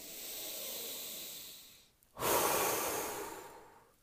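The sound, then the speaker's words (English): Air blown out in two long, steady breaths. The first fades out, a short pause follows, and the second starts louder and breathier before gradually tapering off. No talking is heard. “blow out all those happy thoughts onto the page. Now that looks like happiness. Keep blowing.”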